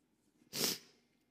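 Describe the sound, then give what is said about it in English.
A deep cleansing breath taken into the microphone: one short, forceful breathy burst that fades quickly, with quiet before and after. “So, as they say, cleansing breath.”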